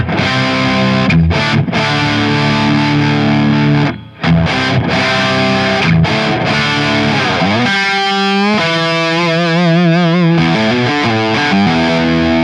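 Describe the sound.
An electric guitar plays through a battery-powered distortion effects pedal, with the Tube Screamer off. Loud sustained chords stop briefly, then return as gliding, wavering notes with strong vibrato.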